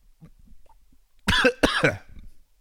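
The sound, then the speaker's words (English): Coughing after a bout of choking: two harsh, rasping coughs in quick succession, loud against a quiet background with a few faint small sounds before them. “Excuse me. I just about choked and died.”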